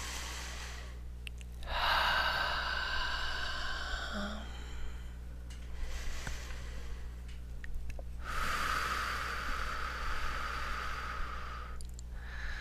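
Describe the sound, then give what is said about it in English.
Slow, deep breaths drawn in through the nose and let out through the mouth during a guided meditation session, several long airy breaths, quiet, over a steady low hum. “So let's breathe in through the nose and out through the mouth.”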